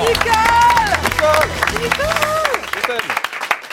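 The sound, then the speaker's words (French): Audience applause for a performer: loud, dense clapping mixed with cheering voices and calls, thinning out and growing more scattered toward the end. “Merci d'applaudir Nicole Croisier.”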